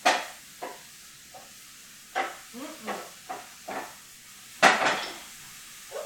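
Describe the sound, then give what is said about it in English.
Mushrooms are stirred in a pan with a utensil, producing a series of sharp clinks and scrapes. The irregular metallic knocks are separated by quiet gaps. “And then lastly, I'm going to stir these mushrooms.”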